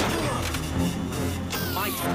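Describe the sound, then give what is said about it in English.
A hard crash as one racing vehicle rams into another during a race, a sharp impact thrown up from dense, loud, continuous racing noise and effects. “Rez's eyes widen. His vehicle rams into Junie's vehicle. He gets thrown off the vehicle and loses two lives.”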